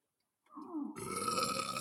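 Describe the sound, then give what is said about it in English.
One long burp that starts as a low, voiced croak and then breaks into a rough, noisy blast. It holds steady and fairly loud to the end. “That's an American burp.”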